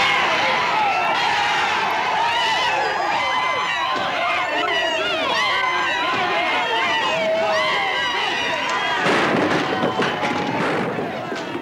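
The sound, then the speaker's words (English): A rowdy crowd tears apart a church in a continuous, loud din of shouting and clattering commotion, swelling into a harsher, denser surge near the end. “And as you can hear, they are totally tearing apart the church.”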